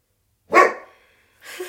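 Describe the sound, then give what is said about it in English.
A dog barks during a yoga class: one loud, sharp bark that trails off, then a second, quieter bark starting near the end after a short silence. “Sorry, that's my dog.”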